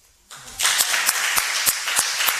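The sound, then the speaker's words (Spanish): An audience at a live show in the Cuyás theatre in Las Palmas breaks into applause after a brief hush, quickly swelling into loud, dense clapping marked by regular accented beats. “Para que la gente no crea que estamos aquí solitos, ¿por qué no aplauden?”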